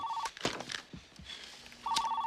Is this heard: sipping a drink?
no

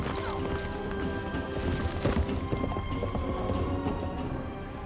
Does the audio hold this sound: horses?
yes

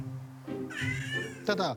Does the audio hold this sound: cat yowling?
yes

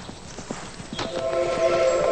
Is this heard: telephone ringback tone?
no

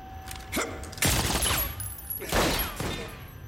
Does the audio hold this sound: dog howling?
no

